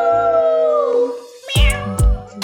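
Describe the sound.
A resident cat gives a long, drawn-out meow whose pitch slides downward, then makes shorter, louder cries accompanied by two low thumps.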